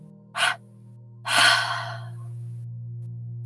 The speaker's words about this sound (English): Take a deep breath in your nose. And out of your mouth in two exhales.